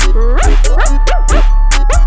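A dog barks in a rapid run of many short, yipping barks with bending pitch over a steady low bass tone.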